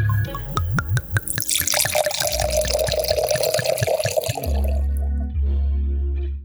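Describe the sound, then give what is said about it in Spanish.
A bottle of wine being uncorked and poured: a few sharp clicks and squeaks, then a gurgling, splashing pour of liquid lasting a couple of seconds, trailing into a low steady hum. “es hora de descorchar el vino”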